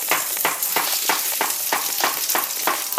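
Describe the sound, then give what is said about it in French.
A slice of bread and a banana fry in a pan with butter. A steady, loud sizzle runs throughout, with regular crackling pulses repeating through it and no voices. “On retourne ensuite notre tranche de pain et une banane. Et on laisse cuire de l'autre côté.”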